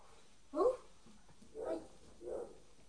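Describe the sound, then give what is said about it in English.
A dog barks three times, spaced about a second apart. The first bark is the loudest and the next two are softer. “The dog's barking.”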